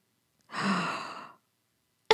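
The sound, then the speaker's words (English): A voice imitating a gasp: a single breathy, airy burst lasting under a second, followed by silence and then a brief sharp onset at the very end. “It was a gasp. She's like, she goes,”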